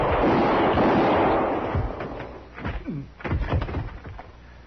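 Gunfire in an old radio drama shootout involving a marshal and a sheriff's deputy: a heavy booming blast that slowly decays, followed by a few sharper, shorter shots and thumps.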